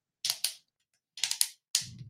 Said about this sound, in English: I got the lid stuck on there. There it goes.